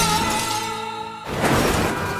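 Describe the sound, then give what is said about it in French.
Window glass shatters as a person crashes through a second-floor window: a single loud, sharp break bursts in midway after a steady tonal hum, followed by a scattering tinkle of falling shards. “elle vient de défoncer une fenêtre et tomber en bas du deuxième étage”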